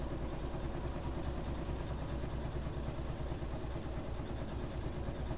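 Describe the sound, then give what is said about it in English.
Washing machine spin motor near the end of a wash cycle, with little water left in the clothing: a steady, dense whirring drone with a low rumble. It holds even and unbroken throughout, with no voices. “That's the spin motor shutting down, and it's gonna coast to a stop pretty much.”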